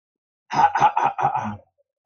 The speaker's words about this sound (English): But get my throat ready here.